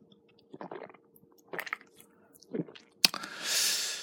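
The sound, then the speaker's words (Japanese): A few soft, wet swallowing sounds of someone sipping a 6% alcohol drink, followed by a sharp click and a long breathy exhale. “もう一口飲ませてください。久しぶりのお酒なんで。”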